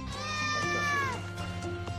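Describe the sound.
A cat meows once in a long, drawn-out cry whose pitch slides down at its end. It is one of the cats kept among inmates at a prison in Chile, and the call stands out clearly over a low steady hum.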